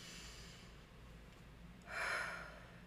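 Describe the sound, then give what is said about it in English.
A breath drawn in through the nose and let out, faint and airy, with a soft hiss swelling in the latter half and fading again, alone without talk. “Breathe in through the nose. Breathe out. One more, I need it.”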